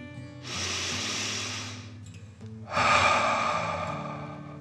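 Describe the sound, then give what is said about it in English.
Deep breathing in a children's guided relaxation: a slow, soft breath drawn in, then a longer, louder breath pushed out, breathy and steady, heard alone without talk. “Deep breath in and out.”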